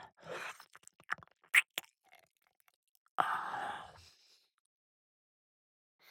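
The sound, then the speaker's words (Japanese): Gentle nibbling bites on an ear: a cluster of brief, soft wet clicks and mouth sounds, followed after a pause by a longer breathy exhale, all quiet and close. “甘がみにしといてあげるよ。やっぱり。君のお耳は美味しいな。”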